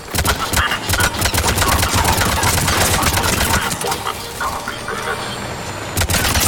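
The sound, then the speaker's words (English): Video game gunfire roars in dense, rapid bursts that run almost without pause, loud and steady, with a low rumble underneath and a brief lull near the end before the shots pick up again. “Shepard, they found us. Under heavy attack.”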